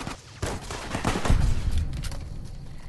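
Gunfire in the Fallout video game: several sharp, loud shots crackle over a low rumbling bed, with a heavier burst of fire building near the middle.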